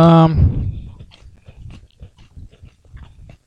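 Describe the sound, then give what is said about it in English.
Crunching and chewing of a buttery malt cracker with a brulee sugar layer, a Hong Kong snack. A brief voice opens, then a string of irregular, dry crunches and chewing follows and gradually grows fainter. “It's a malt cracker. Buttery malt cracker with perfect snap.”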